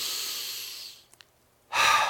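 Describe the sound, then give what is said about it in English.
Deep breaths during a guided group breathing exercise: an airy breath fading out, a short quiet pause with two tiny clicks, then another strong, loud rush of breath beginning. “Do one more. Ready? Deep breath.”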